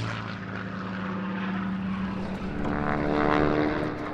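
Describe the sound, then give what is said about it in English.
A Hurricane fighter-bomber propeller plane flies up a loch, its engine a steady droning hum with a buzzing tone that swells louder toward the end and then eases slightly. “They watch a Hurricane fighter bomber fly up the loch.”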